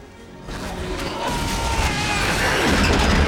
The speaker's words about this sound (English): Under the Ferris wheel, a man opens an engine shed and is thrown backwards by an explosion.